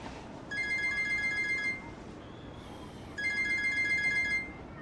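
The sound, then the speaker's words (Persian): A phone ringtone sounds for an incoming call: two bright electronic rings, each lasting about a second, separated by a short pause, fairly soft and heard alone. “جواب بده دیگه، رئیس داره بهت زنگ میزنه.”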